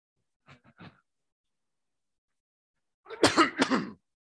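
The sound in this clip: A person clears their throat twice: a brief, quiet rasp, then after a pause a louder, longer and harsher clearing.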